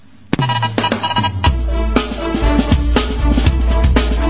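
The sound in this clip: 1980s-style production music, loud and dense, starting with a sharp hit and then running on a steady beat over heavy, sustained bass with bright synthetic layers, no voices.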